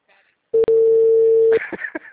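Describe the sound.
A telephone ringback tone plays while a caller waits for an answer: one loud, steady, mid-pitched tone with a brief break near its start, after which a voice begins talking.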